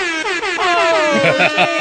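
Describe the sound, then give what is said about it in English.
An air horn sound effect blares loudly in a series of wavering, pulsing blasts whose pitch wobbles like a wail, filling the whole brief clip. “That was the sound of me crying in air horn.”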